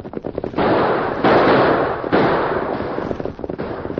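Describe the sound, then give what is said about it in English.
Rapid gunfire during an outlaw holdup of a buckboard on a trail: a dense, loud crackle of shots that swells and stays continuous, with sharper separate pops at the start and end. “That shooting seems to be on the trail ahead of us.”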